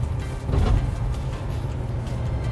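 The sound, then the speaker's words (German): A low, steady car rumble continues as the vehicle rolls over a checkpoint with a customs booth, a raised barrier and one-way metal spike strips. The noise stays even throughout, with no distinct bumps or thuds. “Jetzt fahren wir über den Checkpoint.”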